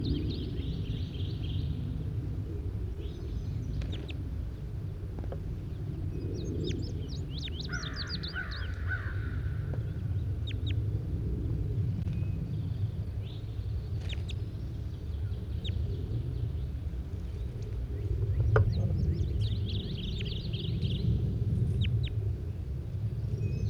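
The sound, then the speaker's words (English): Faint, sparse bird calls, given very weakly, appear as a few short scattered notes over a steady low rumbling background noise. “Very weakly given calls by bird 81.”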